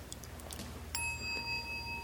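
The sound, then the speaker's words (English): A meditation bell is struck once, giving a clear, faint ringing tone that sustains to the end after a quiet stretch. “And then we have these meditation bells.”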